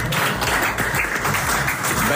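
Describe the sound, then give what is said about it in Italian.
Applause during an Italian national football team segment, a steady, dense wash of clapping that runs unbroken through the whole moment at an even level. “Applausi meritatissimi.”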